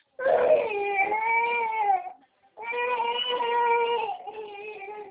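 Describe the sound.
A girl cries in two long, loud, sustained wails separated by a short break for breath, with a steady, strained tone.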